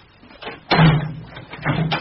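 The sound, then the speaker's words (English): A cabinet door shuts during a stage magic routine with a dull, solid thud, followed about a second later by a second softer bump. “now, the door's closed”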